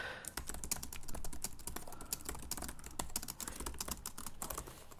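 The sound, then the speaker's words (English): Faint, rapid typing on a computer keyboard while entering link text on a web page, with many quick, crisp clicks in a steady, unbroken stream. “to create a link, you just you can type in whatever you want here.”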